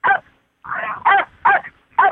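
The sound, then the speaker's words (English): Dogs yipping and whining during an interview, a run of five short, high, tonal yelps and whines with brief pauses between them, heard alone without talk. “That's not the first time I've had dogs in an interview.”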